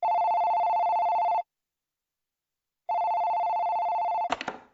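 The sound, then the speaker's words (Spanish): A telephone rings twice, each ring a steady electronic warble about a second and a half long with a pause of similar length between them, followed by a short clatter. “De repente, sonó el teléfono.”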